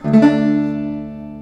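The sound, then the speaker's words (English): A single fingernail strum across the strings rings out as a bright chord that sounds clearly at first, then slowly fades away. “Here's the sound of my fingernail strumming the strings.”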